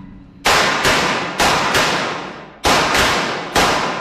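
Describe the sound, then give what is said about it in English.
Gunshots at a shooting range during firearm instruction: a rapid series of several sharp, loud cracks, each trailing off in a short decaying tail, coming in uneven pairs and singles. “Hold the gun tight, just pull the trigger.”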